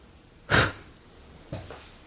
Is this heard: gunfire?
no

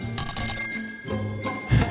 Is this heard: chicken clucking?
no

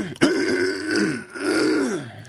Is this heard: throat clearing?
yes

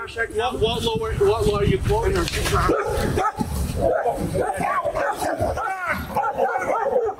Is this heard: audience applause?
no

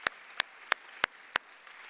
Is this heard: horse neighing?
no

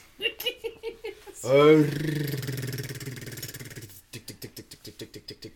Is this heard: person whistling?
no

